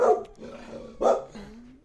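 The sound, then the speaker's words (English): A small dog barking: two sharp, high-pitched yaps about a second apart, with a thin whining tone lingering between and after them. “A little doggy barking right there.”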